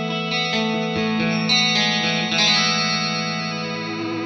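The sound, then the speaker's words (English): Electric guitar played through a Seafoam chorus pedal gives sustained chords a shimmering, wavering modulation, with a few note changes at a steady, fairly loud level and no voices. “Is that the Seafoam? It is. Is it? Was that like the only fast tremolo we ever used? Because you always know the Seafoam. It's a chorus.”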